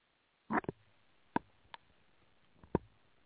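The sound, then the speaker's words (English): Gulps of drinking water, a few faint soft swallows and mouth clicks standing alone against near-silence, with one short cluster followed by single spaced sounds. “I just need a drink of water. So give me a minute here.”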